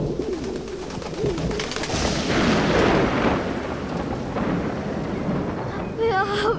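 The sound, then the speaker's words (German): Thunder from a thunderstorm swells into a broad, deep rumble in the middle of the stretch, with pigeon-like bird calls heard before it and again near the end. “Und es hat ein Gewitter gegeben.”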